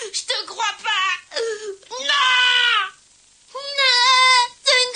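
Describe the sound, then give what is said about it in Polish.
Boys crying in an animated Dragon Ball Z scene, loud strained wailing and sobbing in several bursts with short pauses between them. “Nie płaczcie. Jesteście już dużymi chłopcami. Zamiast płakać, pomścijcie tych, których kochacie.”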